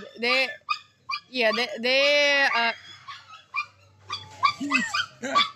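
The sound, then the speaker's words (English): A dog barks and whimpers in a string of high, yelping bursts, several in quick succession with a longer drawn-out whine near the middle, fairly loud throughout. “we have a little bit of a disturbance from a dog and a baby”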